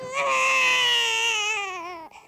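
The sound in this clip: A baby cries in one loud, sustained wail that slowly sinks in pitch and tails off near the end.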